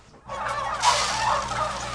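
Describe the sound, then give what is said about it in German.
Hundreds of fattening-barn turkeys gobble and cluck together in a dense, loud chorus that starts abruptly after a brief quiet and holds steady, with a low mechanical hum underneath. “Hunderte von Puten im Maststall.”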